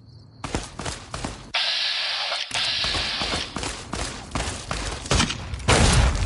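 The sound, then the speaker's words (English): Gunfire from an enemy gunslinger in the Fallout video game: many sharp shots in irregular bursts over a steady background hum, some cracks louder than others. “there's a Viper gunslinger shooting at me from over the hill.”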